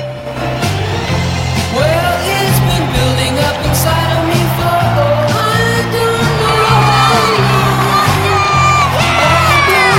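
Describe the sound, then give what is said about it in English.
Crowd at a sports pitch under spotlights cheering loudly, with whoops, shouts and yells running continuously at a steady, full level throughout. “Everyone cheers as they watch Sam and Josie kissing passionately.”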